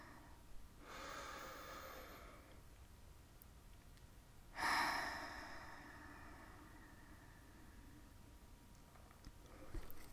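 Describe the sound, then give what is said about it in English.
A slow deep breath is taken: a soft, airy draw of breath, a pause, then a sharper, louder exhale that trails off gradually. The breath is faint and alone, with no other sounds around it. “I feel like we need to take a little bit of a deep breath.”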